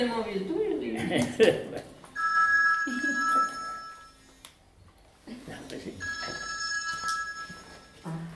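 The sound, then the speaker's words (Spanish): A mobile phone ringtone sounds in two long, steady bursts of bright electronic tones separated by a short gap, after brief voices and rustling at the start. “Ese es el móvil tuyo.”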